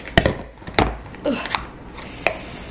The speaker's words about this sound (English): So I put it all into a mixing bowl, and I'm just kind of folding the dough, kneading it together, mixing it up real good, just mixing it together.